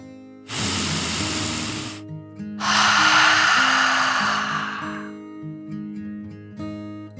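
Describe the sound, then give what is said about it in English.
Deep breathing in and out as a calming 'dragon breath' relaxation exercise for children: two long, airy breaths, the second louder and longer, over soft, steady background music. “took another dragon breath in and out”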